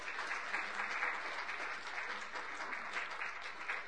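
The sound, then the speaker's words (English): Applause from a church audience: a dense, steady patter of many hands clapping throughout, fairly loud and even, with no clear pauses. “this congregation absolutely owes him a big round of applause”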